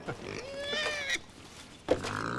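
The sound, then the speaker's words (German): A family of wild boars in an enclosure between the Baltic Sea and a forest: faint, thin, high squeals and whines rise and fall, pause briefly, then a sharper squeal and snort follow. “Und mittendrin im Gehege lebt Familie Wildschwein.”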